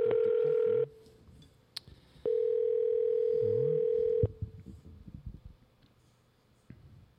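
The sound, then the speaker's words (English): A telephone dial tone heard while a call is being placed: two stretches of steady, even tone separated by a quiet gap with a brief beep, then low, faint noise. “Let's dial him up.”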